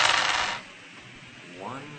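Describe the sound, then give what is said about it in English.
Seven dice rolled during a tabletop role-playing game, heard as a brief dense clattering rattle at the start that quickly dies away into a faint, quiet background. “Seven dice.”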